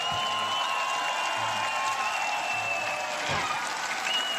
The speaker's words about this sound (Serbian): Jedan veliki aplauz za Miroslava Cvetkovića Cveleta.